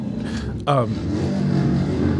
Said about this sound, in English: Everyone's got to rev when they come by. We're broadcasting from the parts counter here at Chop Ed. So everybody that drives by on a bike feels the need to throttle and rev up.